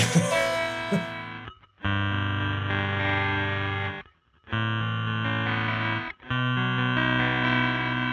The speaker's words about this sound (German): Genau, dann haben wir jetzt hier noch den Ringmodulator. Das ist ja auch so ein Ding, den ich irgendwie nie so ganz verstanden habe. Der klingt irgendwie.